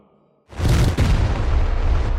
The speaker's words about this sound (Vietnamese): Một tiếng nổ vang lên.